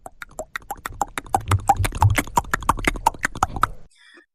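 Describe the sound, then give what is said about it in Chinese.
Galloping horse hooves give a fast, even run of many sharp clip-clops. They build in loudness over the first second, hold steady, then cut off abruptly. “传来一阵急促的马蹄声，这马蹄声是由远而近”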